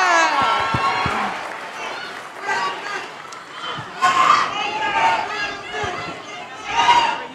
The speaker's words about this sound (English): Y'all make some noise one time for the one and only Boosie.